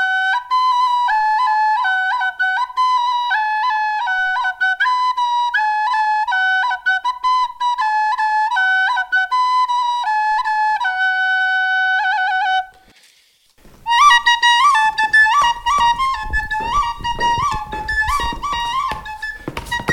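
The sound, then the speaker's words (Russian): A simple tune plays on a replica 11th-century four-hole sopel flute, with clear, pure whistling notes stepping through a short repeated melody. It breaks off briefly, then resumes with a breathier, noisier tone. “Ну вот, например, как звучит сапель 11 века. Это такой простой наигрыш.”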